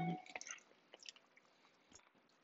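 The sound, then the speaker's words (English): Faint, wet chewing with soft squishy mouth sounds and scattered small clicks at irregular intervals, heard without talk. “And I'm chewing.”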